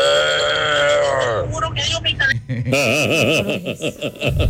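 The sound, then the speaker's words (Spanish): A person imitates a bull with a long, low, sustained bellowing vocal note, followed by choppy chuckling and laughter. “Mi talento oculto es hacer como un toro.”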